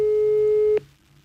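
A telephone busy tone follows a rejected mobile phone call: one steady, clear beep lasting under a second. It is loud and cuts off abruptly into faint hiss.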